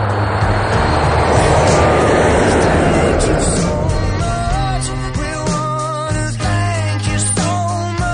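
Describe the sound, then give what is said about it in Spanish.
An airliner takes off from a runway, its broad engine roar loud through the first half before fading as steady music swells and takes over. “el avión inicia su despegue y vuelve a surcar los cielos”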